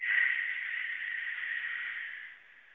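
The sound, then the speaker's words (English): A deep, slow breath drawn in during a guided meditation: a steady, soft airy hiss lasting about two seconds before tapering off, with no talking. “take a deep cleansing breath in right at that creative center. Feeling the flow, deep breath in”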